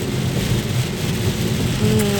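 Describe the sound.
Heavy rain pours down in a dense, steady hiss with a low rumble of thunder beneath it, loud and continuous throughout.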